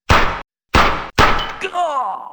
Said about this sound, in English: nice shot, boss. He got what was coming to him, all right. You drilled him right between the eyes.